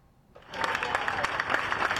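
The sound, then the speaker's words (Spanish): Applause breaks out from about 300 evacuated residents of Aldea del Fresno gathered in a sports hall in Villamanta. It starts after a brief quiet moment and then continues as dense, steady clapping at moderate loudness. “Con una gran ovación, con un gran aplauso, así han recibido los 300 vecinos de Aldea del Fresno evacuados aquí en este polideportivo de Villamanta la noticia de que pueden regresar por fin a sus domicilios a partir de esta tarde.”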